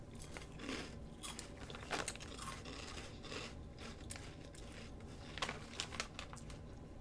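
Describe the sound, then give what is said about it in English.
People bite and crunch little spicy sriracha rice cake snacks, a faint, steady run of many irregular crisp crunches and crackles. “Okay, so now we try one. They're like little rice cakes. Ready? Pound it. Down it.”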